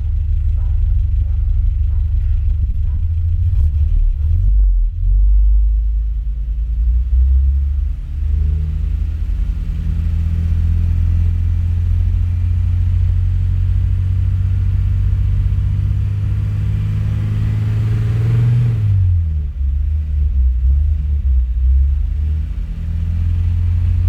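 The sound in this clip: Engine rumble from a motor with a freshly cleaned and adjusted carburetor, idling with a deep, steady drone while the revs waver up and down, then dip noticeably near the end before settling again.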